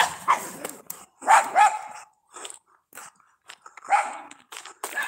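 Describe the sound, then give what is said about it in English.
Dogs bark outdoors near houses along a daily walking route: a series of sharp, mid-pitched barks in irregular bursts, some coming in quick pairs, with short quiet gaps between them. “I'm hoping these dogs all get to know me, you know? I'm walking past all their houses every day.”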